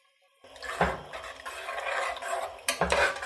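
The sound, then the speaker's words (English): A spoon stirs salt into a simmering pot, scraping and clinking against the pot's sides, with two louder knocks standing out above the steady swishing. No one speaks. “Stir it in.”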